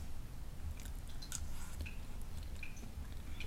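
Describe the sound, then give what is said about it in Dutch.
Chewing during a meal of salmon with pandan rice, furikake, salt and leek gives soft, irregular squishy bites and small crunches. They are faint against a constant background hiss. “En ik ga nu eten.”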